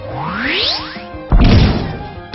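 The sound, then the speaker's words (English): A Power Punch attack hits a foe in a turn-based video game battle: a rising swoosh sweeps upward, then a heavy, loud impact crashes in and rings out briefly. “Tenshaino used Power Punch.”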